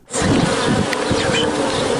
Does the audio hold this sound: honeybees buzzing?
yes